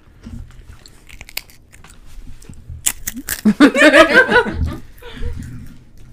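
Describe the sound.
Crisp crunching as someone bites into chips, a few sharp, dry cracks spread over several seconds, with a burst of laughter in the middle.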